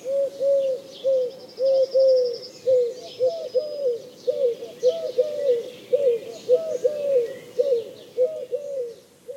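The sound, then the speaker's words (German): Eurasian collared dove cooing, with soft, low, hollow three-part phrases repeated many times in a steady rhythm and faint chirps above. “Die Türkentaube hingegen klingt ähnlich wie die Ringeltaube, aber ihr Ruf enthält 3 statt 5 Elemente.”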